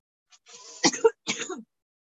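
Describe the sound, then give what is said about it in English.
Throat clearing from a tickle in the throat: a few rough, breathy rasps in a short burst, loud and heard alone with no talking. “I have like a tickle in my throat. That always happens to me when there's like a lot of energy moving. Like I'm always like, like clearing of the throat.”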